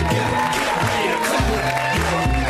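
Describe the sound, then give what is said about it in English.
Audience applause and cheering fill a live comedy show at the UCB, a dense, steady wash of clapping and crowd noise that holds at a loud, even level throughout. “Put your hands together. Keep it going for me. Let's hear it for me. Hooray.”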